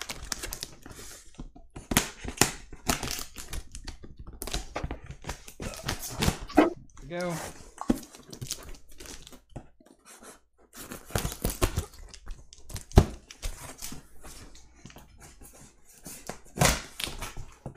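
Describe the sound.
A dog tag is used to slice and tear open a well-taped package of mailed beer. Scattered sharp scraping and ripping bursts come in an irregular rhythm, with talking in between.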